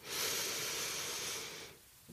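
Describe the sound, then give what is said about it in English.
A single long, deep inhalation during a guided breathing exercise for calming blood sugar worries: a soft, airy hiss that swells quickly, holds for over a second, then fades. “So take a deep breath, right? Let's just take a deep breath”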